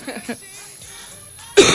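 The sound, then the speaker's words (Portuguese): A single abrupt cough comes over a telephone line at the very end, loud and harsh after faint, thin talk. “Tossiu na minha orelha, hein? Do telefone aqui”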